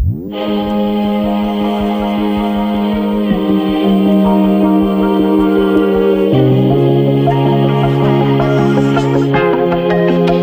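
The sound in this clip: Instrumental opening of a new Catalan song premiering as the anthem of a local radio network, written by a talent-show winner: bright sustained layered tones over a steady pulse, with the bass shifting to new notes a few times.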